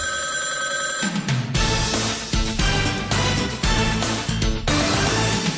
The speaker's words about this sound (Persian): یک زنگ دیگری را خواهید شنید، اما این نه زنگ آخر بلکه زنگ اول است که همه شما را به تماس دائمی با رادیوی آزادی دعوت می کند.